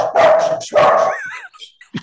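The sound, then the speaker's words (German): A dog barks twice, loud and sharp, in quick succession, then gives a few faint, higher whimpering yips as the sound trails off. “Der Hund erinnert mich an den von Superman.”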